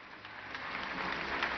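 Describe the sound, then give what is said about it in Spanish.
Applause from a crowd: a steady, even crackle of many hands clapping that holds at a fairly faint level for the whole moment, with no voices over it. “Michelle Fleites, un aplauso para él”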